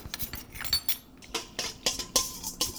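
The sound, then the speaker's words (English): A whisk clinks rapidly against a bowl while stirring a yeast mixture. Many quick metallic taps follow in an uneven rhythm, fairly clear and with no talk. “And speeding it along with the whisk a little bit.”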